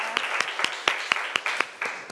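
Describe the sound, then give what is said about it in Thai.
Students in a physics classroom clap to encourage a classmate about to present, nine evenly spaced, sharp claps over a light background hiss. “เอาปรบมือเป็นกำลังใจให้เพื่อนของเราหน่อยนะคะ”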